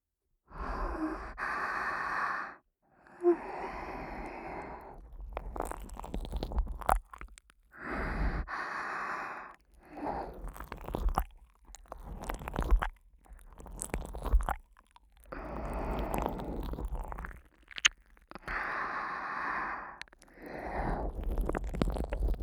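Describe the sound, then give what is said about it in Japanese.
Wet ASMR mouth sounds of ear licking come in repeated bursts, separated by short quiet gaps, with soft breathy sounds between them. “こんな風に耳を舐めますので”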